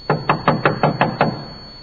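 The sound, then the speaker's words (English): A rapid run of about seven sharp knocks on an outer entrance door, hard and evenly spaced, with quiet after the last knock. “Peter knocked at the outer entrance, and a servant girl named Rhoda came to answer the door.”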